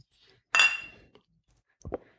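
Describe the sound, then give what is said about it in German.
A glass clinks as someone takes a sip of beer: one bright, sharp clink with a short ringing tail, then a softer knock near the end, with no talking. “ich nehme auch noch mal einen Schluck Bier”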